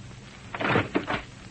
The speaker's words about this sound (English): Open the door.